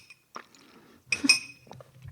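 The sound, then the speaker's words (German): Faint glass clinking as someone takes a sip of orange juice: a few bright, ringing taps with soft handling noises between them, quiet overall. “Kurz noch einen Schluck O-Saft.”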